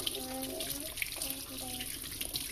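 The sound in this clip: Water running from a tap while hands are rinsed clean during handwashing, a steady, continuous hiss and splash with no pauses.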